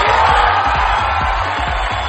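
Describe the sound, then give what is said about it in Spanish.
Crowd cheering and applause as a tribute to a late cumbia legend, a dense, steady roar of noise with yells over a rhythmic low pulse. “Así que desde aquí, aplausos”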